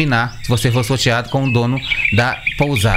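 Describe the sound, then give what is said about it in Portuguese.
A small pet bird chirps at a guesthouse, giving rapid, high, repeated tweets and trills throughout, under steady Portuguese speech. “E esse é o som da pousada que vocês têm lá. É o Zé Luca, o pintinho dele. Tá bom. Pintinho não, o passarinho dele.”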